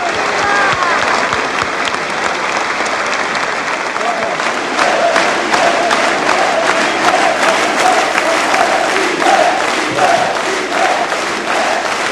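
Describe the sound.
An audience rises and applauds at a political gathering for Fidel Castro. Loud, dense clapping runs without a break throughout, with some shouting voices mixed into it.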